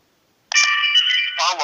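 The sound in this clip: An electronic phone tone starts abruptly after silence: a steady, bright buzz lasting about a second during a call attempt on a new SIM card. A voice begins as it ends.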